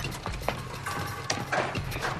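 Running footsteps cross a metal walkway in a quick series of hard, ringing impacts over a steady low background.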